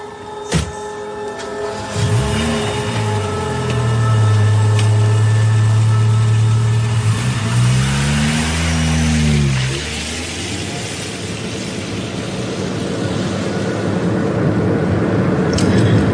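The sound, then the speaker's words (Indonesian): A car engine cranks and catches, then idles with a steady low hum before revving up and back down in a couple of swells, then settling into a quieter, rougher running noise. “Sampai di parkiran, kami pun menyalakan mobil dan langsung bertolak ke Bandung.”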